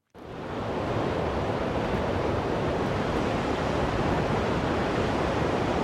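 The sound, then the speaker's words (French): Wind blowing through the mountains, a steady, loud rushing roar that stays even and unbroken throughout, with no voices. “C'est, pour être précis, c'est le bruit du vent. Avec Juliette Medeviel, on a bossé, hein. C'est le bruit du vent dans la montagne.”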